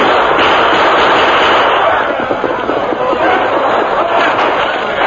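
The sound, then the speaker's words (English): Rifle fire from defenders of a mine against a charging attack: a dense, loud, continuous crackle of overlapping shots, with no single reports standing out, sustained throughout. “The men at the mine waited quietly, their guns ready, their faces grim with determination. At last, the Lone Ranger gave the command. Open fire!”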